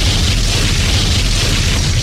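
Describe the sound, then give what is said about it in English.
An explosion sound effect gives a loud, steady roaring rumble with broad hiss layered over it. It holds at an even level for the whole stretch without a distinct burst or any voices. “And now, the explosion.”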